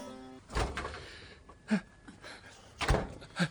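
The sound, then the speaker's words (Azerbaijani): A door being opened, heard as a few dull thuds and knocks from the door and its frame, spaced apart with quiet between them. “Ay Allah'a şükür ki, qapını açdın, yengə.”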